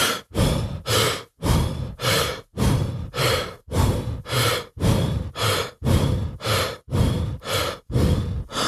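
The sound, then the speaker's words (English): Rapid breathing at one breath per two jumps, the pace of a rope-jumping workout at 120 jumps per minute: many quick, loud, evenly spaced breaths in a steady, unbroken rhythm. “then that means by definition that their respiratory rate or the number of breaths they take per minute is 60. So that means they're breathing like this.”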